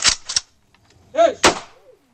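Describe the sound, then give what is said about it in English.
An Israeli soldiers' honor guard fires a rifle volley at a funeral: a few sharp, loud cracks at uneven intervals, each dying away quickly. “At the end of the service, a dozen Israeli soldiers serving as an honor guard fired a volley of salute.”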